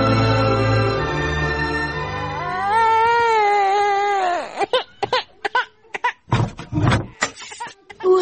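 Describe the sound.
A sick baby who has gone a week without sleeping or feeding well wails in a loud, sustained cry that wavers in pitch. It then breaks into short, choppy sobbing bursts.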